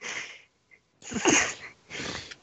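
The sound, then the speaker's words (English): A tabletop role-playing game player imitates snoring with their voice for a character who has passed out drunk: three breathy, snorting bursts, the middle one loudest, with short pauses between. “I snore.”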